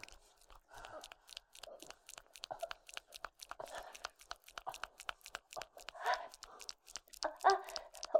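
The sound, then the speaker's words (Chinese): Crunchy chewing of spicy gluten strips, rapid irregular crackling bites and tearing sounds repeating steadily at moderate loudness, with no talk. “我在吃辣条，老公，没事。哎呀，就是辣条太辣了。”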